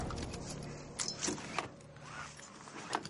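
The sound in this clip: A car driven by a young man arrives at a mansion in a supernatural horror film, with a steady low engine hum under a few light clicks and rustles.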